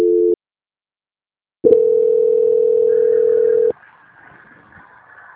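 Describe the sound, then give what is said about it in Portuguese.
A telephone line tone plays during a call transfer: a short steady tone, a pause of silence, then a longer unbroken tone of about two seconds, followed by faint line hiss. “Vai ficar muda, mas não desliga não, dona Viviane, só um momento. Transferência.”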